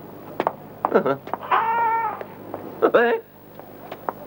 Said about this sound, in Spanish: Mira. Un gatito. Y es precioso.